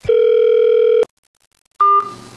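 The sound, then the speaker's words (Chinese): A telephone line tone plays as a call is put through to a studio: a steady, loud tone lasts about a second and stops abruptly. After a pause of silence, a second, briefer tone follows and fades into line noise. “赶紧接进来， 赶紧看看苗总那边有什么新消息、 啊、万一呢、好，把电话接到我们的演播室。”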